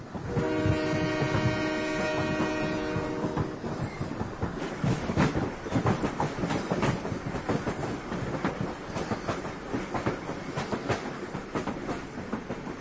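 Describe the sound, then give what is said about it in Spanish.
A freight train crossing Mexico gives one long horn blast, then rumbles and clatters heavily along the rails, loud and continuous. “Así suena el tren de la muerte. Un tren de mercancías que cruza México hasta las puertas de Estados Unidos.”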